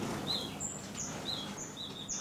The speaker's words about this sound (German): Ich habe den Vogel in der Hand, schneiden wir dann.